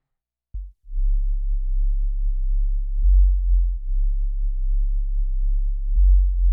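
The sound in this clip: A deep sub-bass sine tone from FM synthesis in FM8 begins with a soft click, then holds as a steady, smooth low drone with faint swells of loudness.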